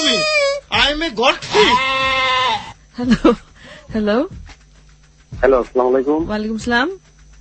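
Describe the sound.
Goat bleating: several loud, quavering, wavering cries with rich harmonics, separated by short pauses.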